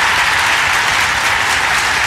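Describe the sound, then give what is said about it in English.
A round of applause, loud and dense, with many hands clapping in an unbroken, even roar that stays steady for the whole clip and has no voices over it. “Got to give him a round of applause, man, I tell you.”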